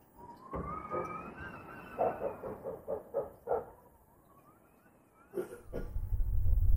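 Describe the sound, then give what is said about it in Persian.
Pigeons cooing under a roof: soft, throaty hooting calls with a drawn-out gliding tone, then several rhythmic pulsing coos, and later one more call before a low rumble swells at the end. “صدای کبوتر هست از زیر شیروانی میاد.”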